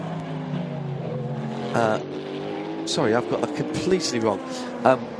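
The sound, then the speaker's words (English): The second-place race car powers out of the Arnage corner at Le Mans, its engine note climbing and falling through revs as it accelerates, while commentators talk over it. “I was thinking that was a car coming back to unlap themselves, but in fact that is the second place car coming out of Arnage”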